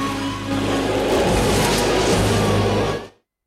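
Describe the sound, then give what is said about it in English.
A car driving off makes a loud, broad rumbling whoosh that holds steady for about three seconds, then cuts off abruptly into silence. “John slides over to the passenger side, then with Johnny at the wheel, they set off.”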